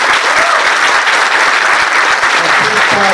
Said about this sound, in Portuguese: Então aqui eu quero pedir uma salva de palmas à bancada federal, que todos os parlamentares contribuem